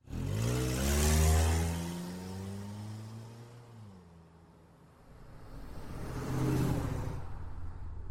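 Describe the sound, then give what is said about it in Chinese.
A car engine starts and the car speeds quickly out of a car park. The engine revs with a loud whirring note, fades back briefly, then surges again with another burst of acceleration. “就急着发动了车子，风一样的驶离了停车场。”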